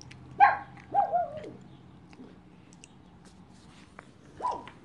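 A dog barks several times, faint sharp yelps in a quick cluster near the start, then one more bark after a quiet pause near the end.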